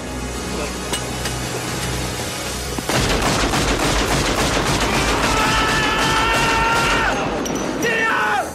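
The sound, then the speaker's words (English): Film gunfire as bullets are fired into the air: after a low steady background, loud rapid bursts of many shots break out and continue densely to the end, with sustained ringing tones mixed in. “just fired a bunch of bullets that are going to come down and hit things and people.”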